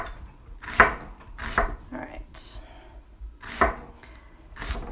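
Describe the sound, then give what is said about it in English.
A knife slices food on a cutting board in a home kitchen, producing a few crisp chops at uneven intervals over soft rustling. “Protect your little fingers. Slice evenly. Now tuck your fingers in.”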